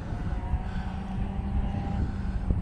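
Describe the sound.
A Lotus 23 racing car leads on a race track with very sharp turns, heard from the bleachers as a faint, steady engine drone with a low rumble.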